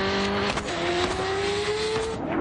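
A car engine roars as the car accelerates during a chase with motorcyclists. The steady, loud drone climbs gradually in pitch, then rises more sharply at the very end.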